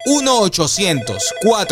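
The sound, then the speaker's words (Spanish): A telephone rings after a number is dialed in a Spanish-language infomercial, with bright ringing bursts repeating a few times over a loud, tonal vocal sound. “Vamos a marcar ya”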